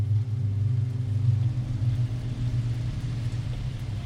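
A car engine rumbles steadily as a woman drives home after picking up her daughter from the hospital, heading for the driveway of a yellow house. The low hum stays even and continuous throughout, with no talking.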